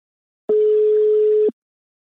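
A single steady telephone ringback tone as a call rings out. It is a plain, mid-pitched tone lasting about a second, starting and stopping abruptly, with nothing else heard.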